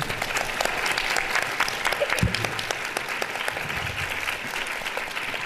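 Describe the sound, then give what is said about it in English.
An audience welcoming a speaker to a talk bursts into warm applause: continuous, even clapping from many hands that holds steady throughout. “So please put your hands together for a very warm welcome to Shoma.”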